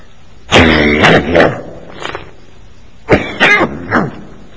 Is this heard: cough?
yes